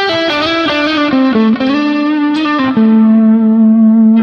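Blues electric guitar played with a slide through distortion effects, its loud, buzzy notes gliding between pitches before settling into a long, sustained low note.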